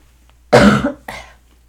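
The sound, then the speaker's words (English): A person coughing while getting over a cold: one loud, harsh burst, then a shorter, weaker second one, with no talk around it. “if I do a cough in between, I'm going to try and catch it, but I apologize.”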